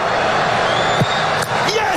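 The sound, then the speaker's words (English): Stadium crowd noise during a World Cup penalty shootout involving Morocco, a steady roaring wash of many voices with a dull thud partway through. “Ismaël Sabari can win the penalty shootout for Morocco with this kick.”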